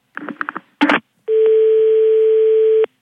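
Telephone tones after a call is cut off: a quick run of short beeps and a brief noisy burst, then a long, steady mid-pitched tone that holds for over a second before stopping abruptly.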